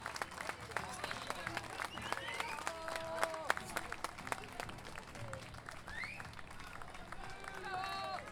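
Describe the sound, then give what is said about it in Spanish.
Audience applause at an international gathering of folk improvising poets in San José de Maipo: many steady claps continue throughout at a fairly even level, with voices speaking over them. “Aplausos a los Pachamama y médicos en la región de Zapateo.”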